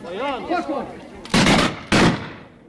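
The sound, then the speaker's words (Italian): Volley of about ten rifles firing, with one misfiring: two loud, broad cracking blasts in quick succession, preceded by a short voice-like sound. “Eccola la scarica di una decina di fucili, con il colpo cilecca si capisce, d'altronde felicemente un morto in meno”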